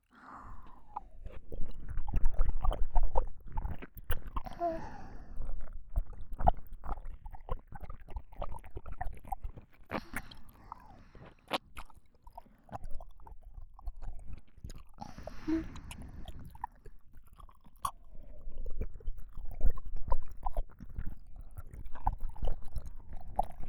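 Close, wet chewing of food repeats steadily throughout, with many soft bites and occasional crunches and no talk.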